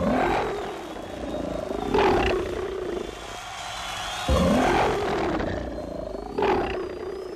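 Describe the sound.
Lions roaring in an arena, a few deep, rumbling roars recurring about every two seconds in a continuous, dense wash of sound.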